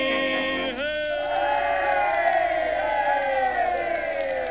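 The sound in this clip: A large crowd of people fills the air with a sustained din of overlapping shouts and cheering voices, loud and continuous.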